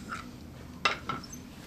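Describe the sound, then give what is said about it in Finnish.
A spoon and a plate of Christmas porridge clink as it is served and passed around: a couple of light, sharp clinks of utensil on dish, quiet and brief. “Minäpä sinä emäntänä otan ensimmäisen lusikallisen Oikein hyvää puuro, kiitoksia. Mä laitan vähän lisää ja laitan lautasen kiertämään, niin saatte vähän maistella joulupuuroa.”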